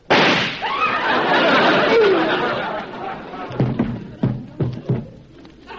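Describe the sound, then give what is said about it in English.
A loud gunshot from a real gun, used as a radio drama sound effect, opens with a sharp bang, followed by a noisy wash and several smaller thumps. “Hoppy must have sold me a real gun.”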